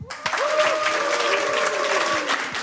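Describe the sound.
Audience clapping hands, dense, sustained applause that holds steady and loud from start to finish.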